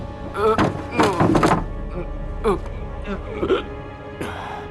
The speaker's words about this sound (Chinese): 那是窗户没开。 快快去打开。 是，打开。